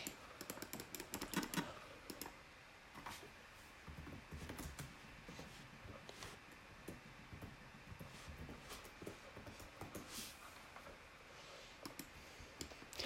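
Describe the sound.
Rapid typing on a computer keyboard as a message is written: many quick, uneven key clicks with occasional louder taps, steady throughout with no speech.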